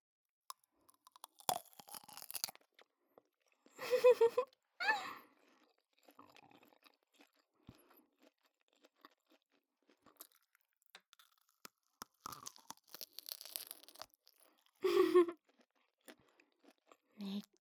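A crunchy sausage being bitten and chewed: loud, crisp crackling bites come in a few bursts, separated by quieter chewing and near-silent pauses.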